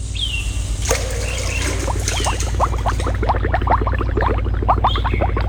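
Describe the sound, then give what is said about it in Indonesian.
Water splashing as someone bathes in cold river water: many quick small splashes and trickles over a low steady hum, with brief bird calls near the start and end. “Baiknya aku berendam saja agar segar badanku. Ah, alangkah nikmatnya berendam di air dingin.”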